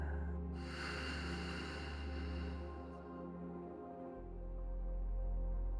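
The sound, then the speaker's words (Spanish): Slow exhale during a guided breathing exercise: a soft, airy rush of breath that swells early and then tapers away over several seconds, with gentle sustained tones underneath. “Sostén por un momento. Y exhala.”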